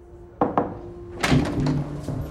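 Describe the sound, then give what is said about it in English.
Two quick knocks on a door, followed by a heavier thud and clatter as the door opens, then a few softer bumps over a low hum. “Ronnie knocks and comes in.”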